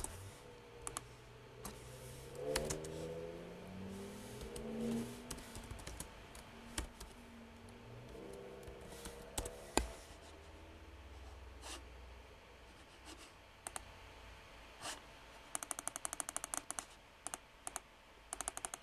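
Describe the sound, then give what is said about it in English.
Rapid mouse clicking at a computer during an online game: faint, scattered sharp clicks, then a dense, fast burst of clicks near the end, with no voices. “don't mind me trying to spam click.”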